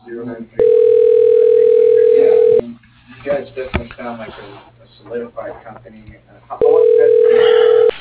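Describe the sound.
A steady telephone line tone on a call to an office extension sounds twice, each an unbroken electronic hum lasting about two seconds, with people talking in the stretch between.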